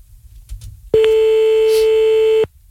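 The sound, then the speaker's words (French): A telephone call is placed and one loud, steady ringing tone sounds. The mid-pitched tone is held for about a second and a half, with faint background noise before it and near silence after. “Bon, on y va, on appelle. Allons-y. Allez, on appelle grâce au numéro que vous nous avez envoyé toute la soirée sur le mail de Toff.”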